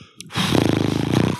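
A person snorts in imitation of a horse: a fluttering, rapidly pulsing blow of air through the lips lasting about a second, moderately loud, followed by a short sharp breath.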